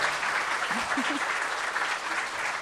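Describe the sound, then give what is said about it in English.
A comedy show audience applauds as comedian Shane Moss is welcomed to the stage, with steady, dense clapping throughout and a few short vocal whoops rising above it early on. “We give it up, everybody, for Shane Moss is here.”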